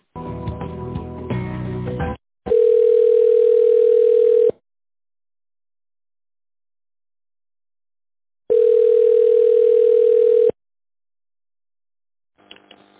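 Telephone tone while a call is transferred to a secretary: a steady, even mid-pitched tone sounds twice, each lasting about two seconds, separated by a long silent gap.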